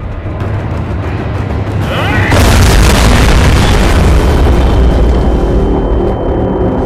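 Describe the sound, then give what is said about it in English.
A battleship's gargantuan 18-inch guns fire skyward with a sudden, massive boom about two seconds in, then a sustained, loud rumbling roar that slowly fades. “Without warning, the gargantuan 18-inch guns erupt skyward, jolting every man on the ship.”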